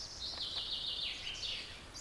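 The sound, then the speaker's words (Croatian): Faint birdsong, quick high twittering notes repeating in short runs over a quiet background. “A nitko ne sluša ptice. A ptice? Da. Samo slušaj.”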